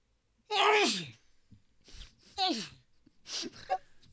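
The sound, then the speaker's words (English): A person gives a loud, explosive sneeze with a voiced, downward-sliding tail, followed by a few quieter breathy vocal bursts. “I had to sneeze. Yeah, I had to sneeze.”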